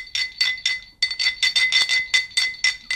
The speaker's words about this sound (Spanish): Nos ha enviado botella de anís.